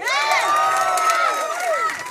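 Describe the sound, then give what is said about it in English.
An audience at a live comedy show in Ireland cheers and whoops. A dense run of high shouting voices with little clapping stays loud and steady, then eases near the end. “By round of applause, how many people are from Dublin?”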